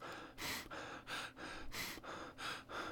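Quiet, close breathing picked up by a condenser microphone in a home studio: many soft, airy breaths in a steady, regular rhythm, with no talk.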